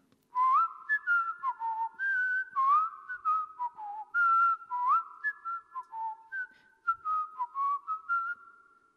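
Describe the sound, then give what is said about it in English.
A person whistling a tune with many clear, pure notes that step up and down in a lively melodic phrase. The whistling is steady and alone, with short gaps between phrases and no talk. “He's whistling.”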